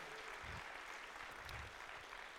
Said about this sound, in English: Can we put our hands together? Let's welcome the online campus one more time.